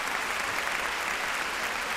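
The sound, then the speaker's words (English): A round of applause for a panel of authors at Wordstock, Portland's book festival. Many hands clap in a dense, steady, fairly loud wash without breaks. “On that note, let's have a big round of applause for these wonderful authors.”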